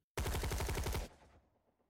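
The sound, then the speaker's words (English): A salvo of automatic gunfire from ambushing gunmen rising out of tall grass: a loud, unbroken burst of rapid shots for about a second that stops abruptly and leaves a fading tail. “men with guns rose up from the tall grass, shed their camouflage nets, and fired an unceasing salvo of bullets at Amon's hired goons.”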